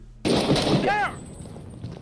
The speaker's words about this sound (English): You're just pointing your gun at the target at that point and just sending shots at it.